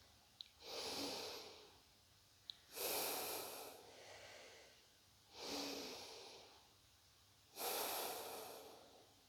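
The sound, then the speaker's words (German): Slow, deep breaths in and out at the start of a breathing exercise, four long airy, rushing breaths with pauses between, soft and unhurried with no talk. “Vielleicht einige tiefe Atemzüge nehmen zu Beginn.”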